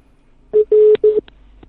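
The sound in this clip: Telephone keypad tones sound as a number is dialed on a phone. Three loud, low beeps come in quick succession, the middle one longest, followed by a faint click.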